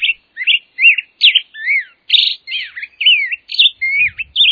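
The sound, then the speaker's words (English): A black-headed grosbeak sings alone in a lively, up-tempo song. Its rich, whistled phrases come in quick succession and swing up and down in pitch with short gaps between them. “And now, the up-tempo performance of the black-headed grosbeak.”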